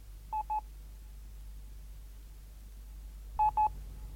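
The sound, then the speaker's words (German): Touch-tone telephone dialing: two short beeps, a pause of about three seconds, then two more beeps, faint over a low steady hum. “Ja, Herr Prokurist. Ich werde sofort anrufen.”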